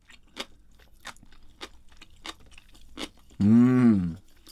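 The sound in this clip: Crisp crunching of canned pickled daikon radish being chewed: a few sharp, evenly spaced bites, followed by a voiced approving hum.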